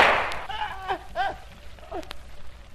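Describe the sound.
A single gunshot cracks at the start, loud and quickly decaying, followed by a voice speaking in short phrases over a low background hiss.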